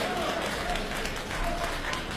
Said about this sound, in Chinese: 大家鼓掌，再来一段。